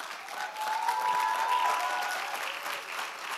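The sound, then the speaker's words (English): An audience applauds to welcome a speaker to the stage. The steady clapping swells after a moment, holds, then gradually eases. “I'd like to ask you to help me to welcome Uma Muntsiki Ndumela, and she's going to minister to us.”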